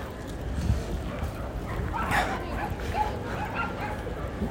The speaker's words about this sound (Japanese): もう右を見ても左を見てもワンコちゃんですねはい皆さんワンコちゃん連れで来ておりますが